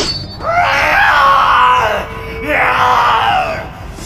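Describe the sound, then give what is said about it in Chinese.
A man screams in pain in two loud, drawn-out cries separated by a brief pause, the first long and strained and the second slightly shorter and trailing off. “剑光将魔气彻底吞噬，安东痛苦地大叫起来。”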